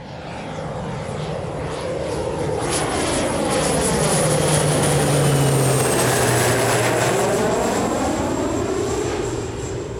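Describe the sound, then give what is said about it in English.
Airliner engines roar during takeoff, a loud, steady rumble that swells toward the middle and eases slightly, topped by a thin high-pitched turbine whine. “Flight crew, please prepare for takeoff. The captain has turned on the seatbelt light. Please take your seat and fasten your seatbelts. Thank you. We've been cleared for takeoff.”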